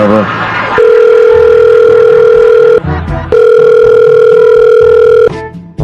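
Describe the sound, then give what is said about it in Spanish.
Telephone ringback tone heard while a prank phone call connects: two long, steady, mid-pitched tones of about two seconds each, separated by a short break, loud and clear, with brief bursts of other sound at the start and in the gap. “Espera, vamos a marcarle otra vez.”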